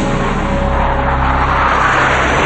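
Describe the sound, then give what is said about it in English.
A fighter plane's engine roars while the aircraft flies erratically out of control after the pilot ejects: a loud, sustained, steady rush of noise with a faint underlying hum. “Still over land, the pilot ejects. The plane's joystick leans to the right, and the plane begins to fly erratically out of control.”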